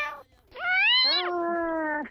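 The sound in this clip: A person imitates a cat's meow. One long, loud, drawn-out call rises and wavers, then drops to a lower, sustained whine before fading.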